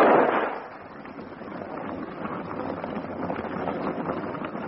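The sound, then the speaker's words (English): A single gunshot in a radio drama opens with a loud, sharp burst that fades within about half a second, then gives way to a steady rushing, wind-like background. “The man saw him coming and moved towards him. For some reason, Farnham fired.”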